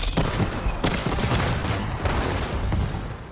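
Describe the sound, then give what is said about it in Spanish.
Artillery bombardment from 75 mm cannons: a dense, unbroken barrage of booming blasts and crackling gunfire that stays loud throughout, with sharper bursts standing out from the din. “nuestros cañones de 75 milímetros iniciaron un bombardeo”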